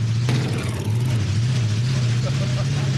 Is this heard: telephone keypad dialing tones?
no